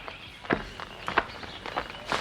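Footsteps of people walking over to a tree: several soft, irregularly spaced steps on the ground, moderately quiet, with no voices.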